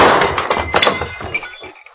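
Glass shattering as a gunshot knocks out a light: a sharp, loud burst at the start, then a bright, crackling spray of breaking glass that thins out and fades over about two seconds, alone.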